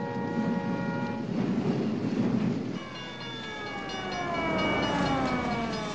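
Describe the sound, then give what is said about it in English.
A long freight train passes a level crossing with a steady, heavy rumble and rattle, joined by a loud tonal horn-like wail whose pitch drops partway through. “The police car stops at the crossing as the train moves past. Clovis shifts in his seat as the long train speeds in front of them.”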